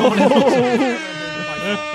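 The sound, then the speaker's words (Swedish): An air horn blares with a steady, sustained tone during a live product-event reaction, with a man talking over and around it. “Alltså här, nu går tutan.”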